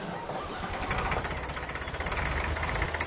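A tractor engine idles with a quiet, steady, rough rumble and a fast knocking pulse throughout.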